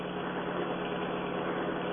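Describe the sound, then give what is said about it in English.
Car engine drone while driving down a highway, a steady, fairly quiet rumble mixed with road noise that stays even from start to finish, with no talk. “Just keep driving straight down the highway.”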